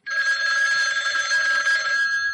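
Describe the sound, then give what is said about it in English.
A telephone rings in one bright, steady, unbroken ring lasting about two seconds, heard alone with no talk. “Go ahead and answer your phone.”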